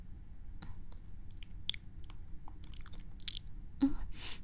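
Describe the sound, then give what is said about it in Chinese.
Faint chewing and wet mouth clicks from someone eating something sweet and strawberry-flavoured, with soft, irregular crunches and smacks and no talk. “草莓味的，好甜啊！感觉已经好久没有吃到这么甜的东西了，好好吃。”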